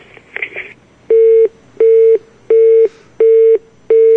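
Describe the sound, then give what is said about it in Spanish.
A telephone tone follows a hung-up call: after a short burst of clatter, five loud, steady beeps at one mid pitch repeat at an even pace with short silences between. “Te tenemos que colgar, tenemos que pasar a otra llamada.”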